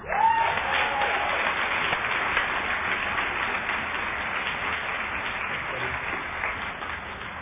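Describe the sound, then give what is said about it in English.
An audience applauds to welcome the opening speaker at Overeaters Anonymous' 51st birthday party. The clapping is dense and continuous, strongest at the start and easing slightly toward the end. “please put your hands together for the opening speaker of Overeaters Anonymous' 51st birthday party”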